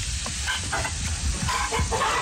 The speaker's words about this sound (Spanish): Vamos a poner chicharrón. Cebolla blanca. Estos son los huevos criollos. Vamos a ponerle dos. Vamos a poner el verde. Huevo frito.